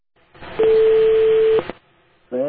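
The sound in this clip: A call is dialed on a telephone from the United States to a farmer's home in a Uyghur rural area: one steady, mid-pitched beep lasts about a second over line hiss, then a voice begins.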